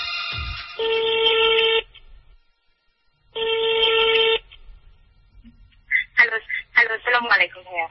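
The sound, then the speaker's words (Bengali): A telephone call being placed: two long, buzzing line tones separated by a quiet gap, followed by people talking. “আমি একজনকে phone দিচ্ছি এখনই”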